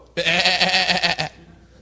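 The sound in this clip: A voice imitating a sheep's bleat, one sustained wavering baa of about a second with a rapid pulsing tremor, alone with no other sound.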